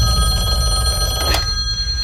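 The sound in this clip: Telephone bell ringing for an incoming call, loud and sustained with bright, steady ringing tones throughout and a short sharper burst near the middle.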